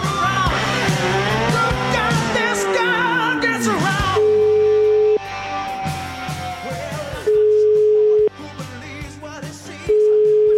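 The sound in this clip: Telephone tones while an outgoing call is being placed, steady low beeps about a second long repeating three times with gaps between them, after a few seconds of other gliding tonal sounds.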